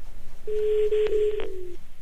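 Ringback tone of an outgoing telephone call, a single steady electronic tone lasting about a second with brief breaks, ending in a slight downward glide.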